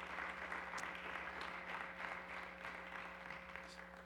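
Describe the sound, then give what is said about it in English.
Audience applause welcomes guests joining the host on stage: sustained, dense clapping for about four seconds with no voices, over a steady low hum. “Can you give them a big hand today for coming to help talk about this kind of issue?”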